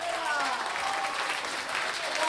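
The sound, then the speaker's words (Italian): Dense applause for choir singers as they are introduced at a choir performance. Loud, even clapping continues throughout, with a voice heard over it. “vi presentiamo i coristi del nostro gruppo e quindi l'applauso”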